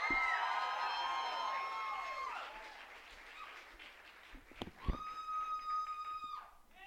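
An audience at a poetry slam cheers and applauds as a poet is welcomed to the stage: a steady wash of clapping with high, sustained whoops near the start and again later.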